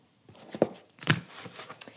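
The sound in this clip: Soft papery snaps and rustles as a tarot deck is cut by hand, a few brief quiet slaps separated by near silence.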